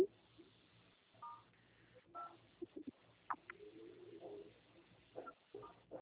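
Telephone dialing tones sound during a call transfer, a few short, faint beeps irregularly spaced over a thin, narrow phone-line hiss.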